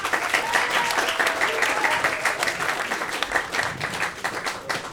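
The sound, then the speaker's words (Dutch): Audience applause at a magazine launch presentation. Many hands clap in a dense, continuous patter that stays fairly loud for about five seconds, with slight swells and dips. “Applaus voor Tina, alsjeblieft.”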